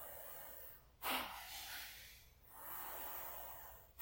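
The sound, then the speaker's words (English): Breathing exercise with inhales and forceful exhales. A few long, rushing breath sounds start sharply and then taper off, faint and alone with no speech. “Forceful out. Make it a little faster. Inhale. Forceful. Inhale. Forceful. Keep going.”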